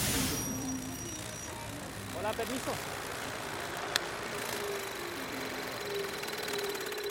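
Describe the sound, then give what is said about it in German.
A homemade lawnmower with a very old engine mows a large meadow in Matanzas, Cuba, giving a faint, steady low drone that runs unbroken, with one sharp click partway through. “Entschuldigen Sie bitte, Ihre Maschine kommt mir recht besonders vor. Könnten Sie uns bitte sagen, worum es sich handelt? Das ist ein Rasenmäher, der mir die Arbeit leichter macht. Und Sie haben ihn selber gebaut? Genau. Der Motor ist uralt,”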